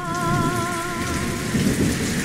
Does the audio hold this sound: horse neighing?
no